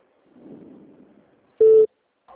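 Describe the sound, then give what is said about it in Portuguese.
A single short, steady, mid-pitched telephone tone as a call is transferred to customer service. It follows a faint low murmur and stands out clearly. “estou te transferindo para o nosso atendimento. Só um instante.”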